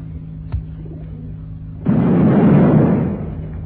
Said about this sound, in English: Now, switch on the transmitter. Yeah, working perfectly. Now we activate the bomb